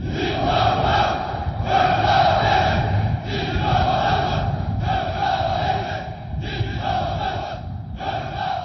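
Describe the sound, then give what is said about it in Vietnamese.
Massed soldiers of an honour guard shout their loyalty to Kim Jong-un on a cold, windy day before Kim Jong-il's mausoleum. The loud, in-unison chants come in repeated rhythmic phrases, each a sustained roar followed by a brief dip. “ông Kim Jong-un mặc một chiếc áo khoác màu xanh đậm và đứng nghiêm trước các binh sĩ dàn chào tung hô lòng trung thành đối với ông.”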